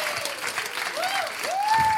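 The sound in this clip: An audience applauds to welcome performers to the stage, with steady dense clapping throughout and some voices rising over it.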